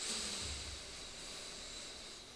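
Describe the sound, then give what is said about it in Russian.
A deep breath drawn in during a guided relaxation exercise: a long, soft, steady airy hiss of inhaled air with no talk over it. “Нам хочется сразу расслабить плечи, да, немножечко улыбнуться, вдохнуть полной грудью, может быть, даже животом. Давайте вдохнем.”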